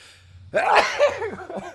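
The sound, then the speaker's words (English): One sharp sneeze bursts out from someone with allergies, loud and abrupt, then trails off into brief breathy vocal sounds. “Was that a sneeze? Yeah. Oh, bless you, man. I'm allergic.”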